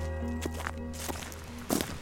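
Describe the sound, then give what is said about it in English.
Faint footsteps walk up to a farmhouse in Snowdonia, North Wales. A few soft thuds sound over a steady low hum, with a slightly louder step near the end. “I'm just walking up to this farmhouse and apparently this is where Tolary lives”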